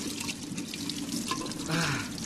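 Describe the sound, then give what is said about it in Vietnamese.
Water drawn from a deep well fed by underground springs is poured out for washing the face, a steady splashing trickle with a few drips, and a faint voice may be present. “Có nước máy rồi, sao mẹ còn kéo nước giếng làm gì cho vất vả mẹ? Con này. Dạ. Lại đây rửa mặt đi con.”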